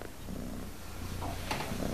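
A cat purrs softly, a low and rapidly pulsing rumble that keeps a steady rhythm across the brief, quiet moment.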